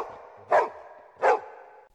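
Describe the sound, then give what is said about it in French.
A high school's dog barks twice, two short, sharp barks evenly spaced over a steady background hum. “Au fait, vous m'avez reconnu? C'est moi, Charlie, le chien du lycée.”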